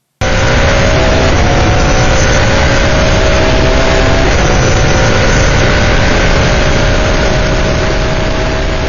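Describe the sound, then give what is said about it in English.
Roaring engine of an S5000 single-seat racing car, a loud, sustained drone that holds steady for the whole stretch with only slight shifts in pitch and no pauses. “S5000, wow. This is what local single-seat racing has needed for years. For one thing, they sound like this.”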